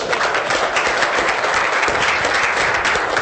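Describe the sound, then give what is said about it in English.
Sustained applause from an audience clapping for a team and its speakers, a dense, steady wash of many hands that holds at an even, fairly loud level throughout, with no voices over it. “Well, the very first thing we should do as a team and as speakers is just put our hands together to congratulate these poor people for having survived us.”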